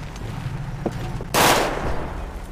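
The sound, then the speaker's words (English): Gunfire in the FiveM video game: a single loud, dense burst of shots lasting under half a second, standing out sharply over a low, steady background hum. “Who's still shooting? Well, apparently nobody's still shooting.”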